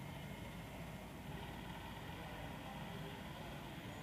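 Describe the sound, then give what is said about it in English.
Prisoner helicopter arriving in the video game Prison Architect, a steady, even engine and rotor drone that holds at a constant low level throughout without clear rises or breaks. “Ah, the prisoner helicopter's coming.”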